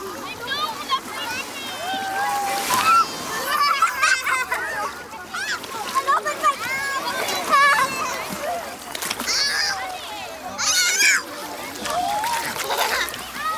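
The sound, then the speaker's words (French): Sea water splashing and sloshing as young children wade with their feet at a beach in Italy on a kindergarten outing. Continuous splatter runs beneath many children's voices and shouts throughout. “On veut juste mettre les pieds dans l'eau.”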